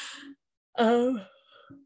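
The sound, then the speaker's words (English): A single drawn-out, voiced yawn lasting about half a second at full strength, then trailing off into a breathy tail, with brief soft vocal sounds just before and after. “that yawn leads me to my question.”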